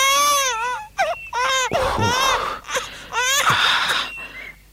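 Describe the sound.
A baby cries in loud, wavering wails, broken by short gasping catches of breath between bursts, with no other voices present.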